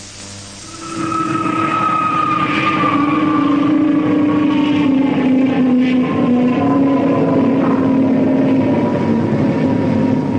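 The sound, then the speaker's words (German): An airliner landing in Kingston, Jamaica, with a loud, steady engine drone and whining tones that slowly drop in pitch. It swells up after a brief quieter moment and holds without talk. “Hallo New York, Ihre Maschine 323 landet soeben in Kingston, Jamaika.”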